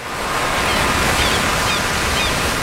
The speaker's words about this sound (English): Every day in California, more than 11,000 surfers paddle out across our 840 miles of pristine coastline.